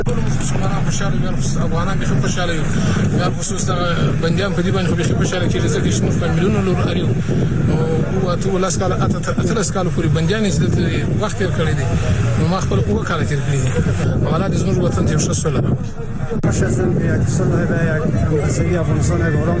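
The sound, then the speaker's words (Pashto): Released Taliban prisoners leave Pul-e-Charkhi prison in the evening, raising a loud, unbroken commotion of many voices mixed with running vehicle engines. “دا د هغو طالب بندیانو شور او ځواک دی چې تیر ماښام په تیاری کې د څرخی پله له زندان نه آزاد شول.”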